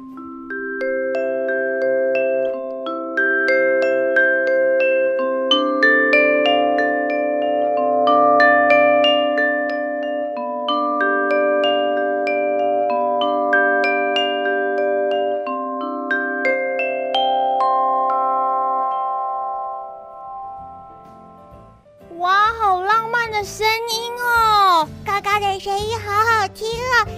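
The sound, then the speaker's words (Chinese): A glockenspiel with metal bars plays a bright melody of ringing notes that overlap and sustain for about twenty seconds. A lively, high-pitched voice then starts talking once the notes fade. “好，小朋友，我们先来听听看铁琴的声音哦。”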